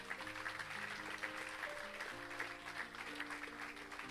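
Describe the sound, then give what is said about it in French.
Church audience applauding for Jesus during a service: a steady wash of clapping over sustained keyboard chords, fairly soft throughout. “Est-ce qu'on peut acclamer Jésus, frères et sœurs”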